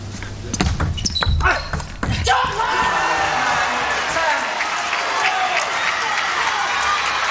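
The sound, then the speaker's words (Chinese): Table tennis serve at a match, with the ball bouncing on the table: a few sharp, light ball clicks over crowd noise, then a burst of loud applause and cheering that carries on to the end. “现在梁景坤发球。”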